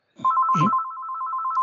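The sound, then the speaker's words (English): A house telephone rings in a home in British Columbia, sounding as one continuous, loud, warbling electronic ring that starts abruptly and runs steadily to the end. “Phone is ringing. You might have to edit this part out. I can't do anything. It's the phone in the house where I'm house sitting in British Columbia.”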